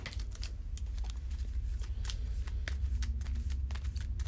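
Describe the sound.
Playing cards being shuffled during a board game with an encounter deck: many rapid, crisp riffling flicks run continuously over a low steady hum, with no voices.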